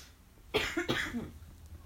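A person coughs in two rough, fairly faint bursts close together, with quiet before and after.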